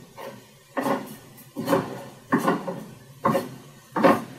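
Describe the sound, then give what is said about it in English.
A metal faceplate being screwed onto a wood lathe spindle gives five clunking, rattling knocks at fairly even intervals, each with a short ringing tail, with no talk. “that's going to screw onto my machine right here so that we can then turn our bowl round. And all it does is it screws right on here.”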